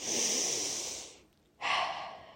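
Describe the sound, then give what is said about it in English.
One person takes a giant deep breath: a long, loud, airy breath sound, a brief quiet gap, then a second strong breathy rush of air. No talk. “take a giant deep breath.”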